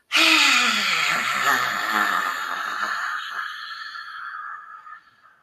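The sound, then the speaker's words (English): A long, forceful exhale through a wide-open mouth with the tongue out, done as a guided breathing exercise. The loud, breathy, partly voiced rush lasts about five seconds before fading out. “breathe in and open that mouth wide, tongue out, exhale.”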